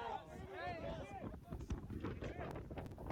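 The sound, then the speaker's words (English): Wind buffets the microphone outdoors, a low, uneven rumbling with gusty swells, faint overall, as a voice talks over it at the start. “And by the way, you hear the wind, right?”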